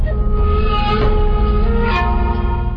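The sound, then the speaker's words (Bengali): Loud, continuous rumble of a train running on the tracks between Dhaka and Maijdi in Noakhali, a steady low roar with sustained whining tones drifting through it and no pauses. “Dhaka থেকে ট্রেনে করে আমরা পৌঁছাই নোয়াখালীর মাইজদিতে।”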